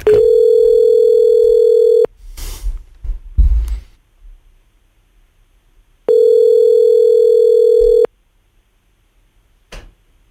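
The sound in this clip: Telephone tones sound while a number is being called: two long, steady, loud electronic tones about four seconds apart, with clicks and handling noises between them.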